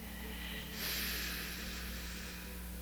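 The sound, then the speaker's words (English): A single deep breath drawn in during a guided meditation, a soft, airy inhale of about a second rising over a steady low hum and then easing off. “And take a good deep breath down into your kundalini.”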